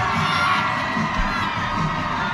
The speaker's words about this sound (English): as the crowd is fired up tonight